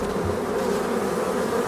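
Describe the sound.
Bees buzzing in a soundscape made with a local beekeeper, a dense, continuous droning hum that stays steady and fairly loud throughout.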